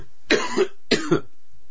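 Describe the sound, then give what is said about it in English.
Someone clears their throat twice in quick succession, as if something is caught in it. The two short, rough, guttural bursts come about half a second apart, alone and without talk. “Excuse me. Something in my throat.”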